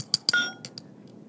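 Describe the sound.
Salt and camphor pellets are pounded into powder in a few sharp, ringing clinks at irregular intervals, each strike bright and brief, the later ones fainter.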